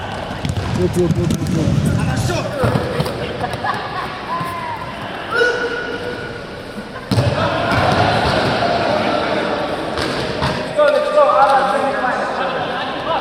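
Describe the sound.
A ball bounces and thuds repeatedly during a Dagestani 'regbi' game, a rugby-style sport mixing American football and basketball. The loud, irregular thumps come through amid people talking and shouting.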